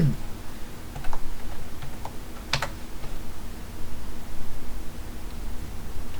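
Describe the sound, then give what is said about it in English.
A search typed on a computer keyboard: many quick, soft keystrokes tap out in an uneven stream over a steady background hiss, with a few slightly sharper clicks. “You must have typed it in wrong. Put it in quotation marks.”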